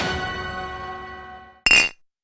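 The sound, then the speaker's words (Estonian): An empty glass jar rings out with a bright clink whose tone slowly fades, then gives one short, sharp clink that dies away quickly. “Supp valmis, aga kuhu see tühi klaaspurk käib?”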